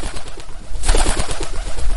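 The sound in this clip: A black bird gives a soft, dove-like cooing call, low repeated notes set against a steady rushing background noise.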